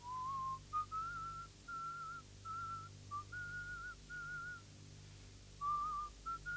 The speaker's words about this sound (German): Dann, als sie aufhört, pfeife ich die Melodie weiter, leise, fast unhörbar.